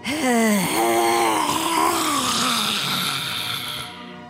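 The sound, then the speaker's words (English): A long voiced exhale during a breathing exercise, a moaning, sigh-like tone held for about four seconds, with the pitch dipping early and then slowly sinking as the breath runs out. “Two vocal breaths, one cleansing. Eyes open. Breathe in. Vocal breath.”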